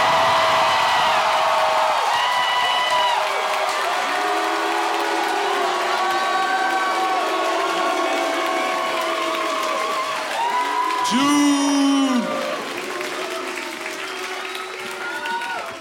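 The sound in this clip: A crowd cheers, claps and shouts as June Diane Raphael is welcomed as a co-host. Many voices call out together over steady applause for a long stretch, swelling and thinning but never stopping.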